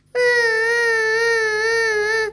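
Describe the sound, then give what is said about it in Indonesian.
Crying from a story character whose tree home has fallen, heard alone as one long, steady, high-pitched wail held for about two seconds at a loud level. “Namun pohon tempat Cici tinggal, bruk, tumbang ke tanah. Cici menangis.”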